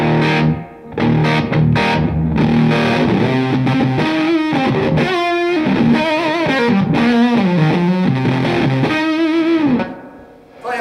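Electric guitar through a BC-108 Fuzz Face pedal, guitar volume rolled back to about two for a cleaner tone. It plays a continuous run of ringing, harmonically rich notes at a steady loud level, with no talking.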